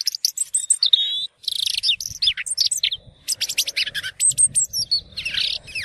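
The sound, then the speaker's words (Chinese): Small birds on a mountain chirp and twitter in a rapid, busy chorus of high-pitched calls, many overlapping notes with only brief gaps, loud and with no voices. “惊动咗山上边嘅雀仔”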